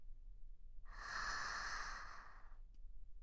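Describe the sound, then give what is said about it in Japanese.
A slow, deep inhale drawn through the body while relaxing: one long, airy breath lasting under two seconds, smooth and steady at moderate softness, with no talk around it. “ゆっくり息を吸って”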